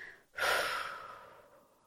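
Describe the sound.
A single long exhale released after the pelvic floor is tightened in a guided relaxation exercise, with an abrupt, breathy onset that fades gradually to quiet.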